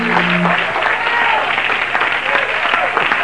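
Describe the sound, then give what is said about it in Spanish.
A church audience applauds during an evening service: dense, steady clapping runs the whole clip, with some voices mixed in near the start. “aplauso a Cristo en esta noche. Sí, él se lo merece.”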